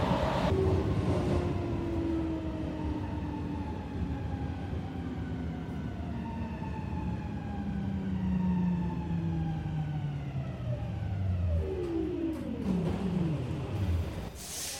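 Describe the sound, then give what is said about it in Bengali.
A metro train pulls into a station with a steady, loud rumble. Several whining motor tones glide slowly downward in pitch as it slows to a stop. “দশটা এগারো metro এসে পৌঁছালো রবীন্দ্র সরোবর স্টেশনে”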